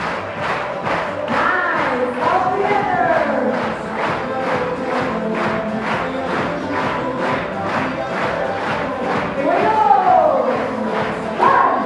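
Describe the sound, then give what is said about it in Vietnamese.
An audience claps together in unison, keeping a steady, even rhythm of many loud claps, while voices in the crowd shout and cheer over the beat. “truyền thống đó gọi là gì ạ clap it out tức là chúng ta vỗ tay à.”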